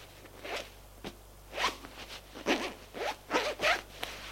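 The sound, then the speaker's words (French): A trouser zipper rasps as the trousers are pulled up: many short, quiet scratchy zipping bursts in an uneven rhythm, with no voices. “Il remonte son pantalon.”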